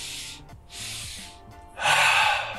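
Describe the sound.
Deep breaths drawn during a guided breathing exercise: three airy, hissing breath sounds separated by short pauses, the last one longest and loudest, with no talk.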